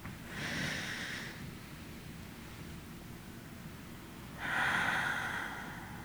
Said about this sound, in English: I was going to invite all of us to first start off with taking a deep breath.